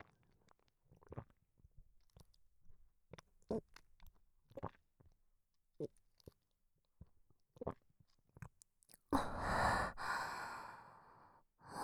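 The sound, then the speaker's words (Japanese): Faint, wet swallowing and mouth sounds come as many soft gulps and clicks at irregular intervals, followed by a louder, breathy exhale near the end. “私が飲み込む音、もっと聞いてくれますか？”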